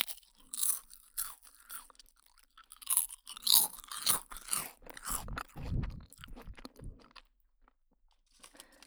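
Crunching and chewing on a milk rice cracker: many crisp, brittle bites come in irregular bursts, then fade into softer chewing. The sound is faint overall.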